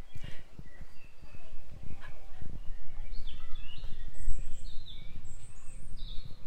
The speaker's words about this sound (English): I can hear a robin in the distance.